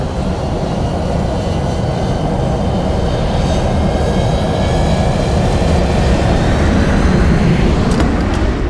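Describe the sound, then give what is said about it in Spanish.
Airplane taking off, a loud continuous engine roar with a broad low rumble and thin whining tones above it, holding steady and swelling slightly toward the end. “A ver, estamos listos para el despegue.”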